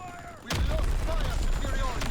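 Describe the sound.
Gunfire in the video game Battlefield 1 erupts suddenly into a loud, dense barrage of shots that keeps rattling without pause, with people talking underneath.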